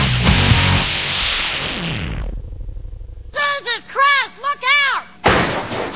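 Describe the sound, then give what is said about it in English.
Gunfire comes as a rapid, heavy burst of shots lasting about two seconds. It dies away, and animated voices then speak in short, high-pitched phrases. “No, I'm not done shooting.”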